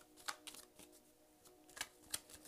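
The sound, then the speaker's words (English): Shuffling of a Rider-Waite tarot card deck: quiet, crisp papery flicks and riffles, a series of short bursts spread irregularly across the moment with soft rustling between them. “I am shuffling the Rider-Waite tarot deck.”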